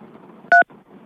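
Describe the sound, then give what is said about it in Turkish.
One short two-tone beep from a telephone keypad as the 3 key is pressed, clear and alone, with a faint murmur of a phone line before and after it. “Çapkın için 3'e basmanız gerekiyor. 3'e basman gerekiyor. Evet. Tamam, basayım abi. Tabii basın.”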